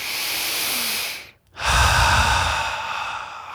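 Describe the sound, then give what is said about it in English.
A deep belly breath: one long, breathy draw of air, a brief silent pause, then a long, full sighing exhale, loud and alone with no talking. “a big belly breath with my hands on my heart”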